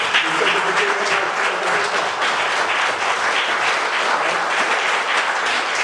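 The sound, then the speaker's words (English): Audience applause at an event celebrating Central Virginia's hip-hop history, a dense, steady wash of clapping that stays loud and even for the whole clip with no break. “So let's give a round of applause for”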